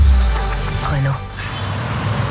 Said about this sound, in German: Renault. Ist das der Renault 5 E-Tech? Oui. Oui, ist es.